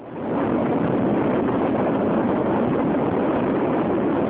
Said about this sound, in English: Liftoff, and the world's first space tourist heads for the stars.